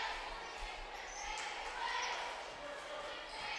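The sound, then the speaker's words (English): Basketball dribbled on the court during a Washington Catholic game, the ball's bounces sitting faintly under a steady wash of crowd noise and chatter. “Taylor going to try to dribble it out of trouble.”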